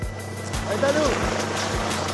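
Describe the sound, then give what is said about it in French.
A civil protection helicopter takes off. A steady, loud drone of engine whine runs under a regular, heavy thump of rotor blades. “L'hélico de la protection civile redécolle. Il va nous récupérer depuis les airs.”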